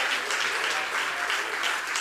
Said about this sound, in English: Oh, come on, somebody clap your hands and make Jesus welcome and the Holy Spirit welcome in this place.